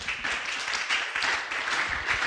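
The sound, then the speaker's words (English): An audience at a church service applauds, a dense, continuous wash of clapping that fills the whole stretch without a pause. “Clap for Jesus Christ.”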